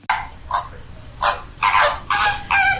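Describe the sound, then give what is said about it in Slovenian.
Flamingos calling at a nesting colony: loud, nasal, goose-like honks in several bursts, the later ones longer and overlapping into a harsh chorus. “Lani je bilo tu 250 gnezdišč plamencev. Tako jih je slišati.”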